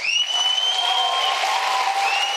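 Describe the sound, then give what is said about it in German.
Crowd cheering and applauding at an election victory celebration of a Turkish opposition party in Istanbul. Dense, loud clapping and roaring voices carry high piercing whistles, sustained without a break. “Unbändiger Jubel bei der CHP.”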